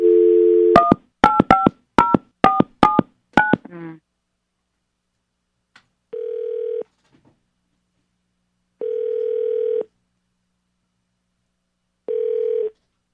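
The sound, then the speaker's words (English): A telephone call being placed: a short dial tone, then a rapid run of keypad dialing beeps, followed by three evenly spaced, steady ringing tones with silence between them. “Let's give Brian a call.”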